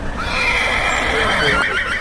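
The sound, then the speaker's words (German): Horses neighing from within dense forest near Coshocton, Ohio, by the Ohio-Erie Canal: drawn-out, high, wavering whinnies that hold at a loud, steady level over a bed of rustling background noise. “Mitten aus dem Wald heraus wiehern auf einmal Pferde.”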